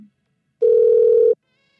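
A telephone tone after a phone call is hung up: one steady, mid-pitched beep lasting under a second, alone with silence around it.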